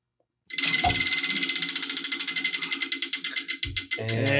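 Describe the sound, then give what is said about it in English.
A prize wheel is spun, its pointer ratcheting in a long run of many loud clicks that start rapid and steadily slow, spacing out as the wheel loses speed. “we need to spin the wheel. Who wants to spin the wheel?”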